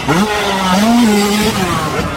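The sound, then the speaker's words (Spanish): Motocross motorcycle engines rev at a freestyle stunt show in a continuous loud, buzzing whine that climbs, holds, then wavers and dips. “¡Motos volando! ¡Freakstyle!”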